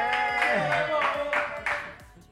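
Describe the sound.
A few sharp hand claps from one person, irregularly spaced bursts over a sustained tonal background, fairly faint overall.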